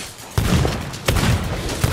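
Gunfire in the Resident Evil video game: three sharp, evenly spaced shots punch through a dense, noisy game soundscape.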